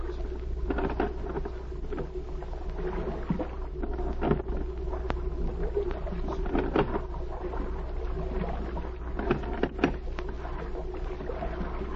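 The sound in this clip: A rowboat draws alongside on the water. A steady low rumble sits beneath light watery patter, with scattered sharp knocks and creaks throughout.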